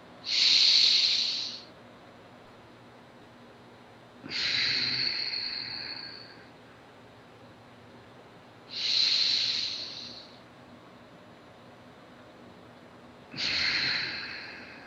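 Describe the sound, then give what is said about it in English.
Four slow, deep belly breaths, each a loud airy hiss that lasts over a second and tails off, evenly spaced about four seconds apart with quiet between them. “Do a couple more deep breaths and make sure you fill your belly out as the energy goes right down to your perineum.”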